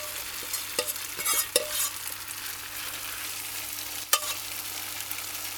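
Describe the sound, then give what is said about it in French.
Batter sizzles in hot oil in a frying pan, a steady crackling hiss with a few sharp utensil clinks standing out above it. “Dans la poêle. Il faudrait faire la même chose dans l'autre pour pas que l'huile soit en train de brûler. Tu le déposes et tu essayes de faire en sorte que ça fasse un truc plat, là, comme tout plat.”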